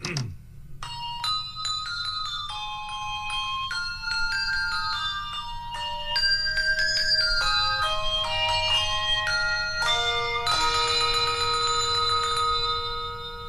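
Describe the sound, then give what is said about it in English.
Ringing bells playing a Christmas melody in a 1989 Hershey's Kisses chocolate TV commercial, bright single chime notes stepping through the tune before building into fuller layered chords near the end. “And that is the Hershey's Kisses commercial from 1989.”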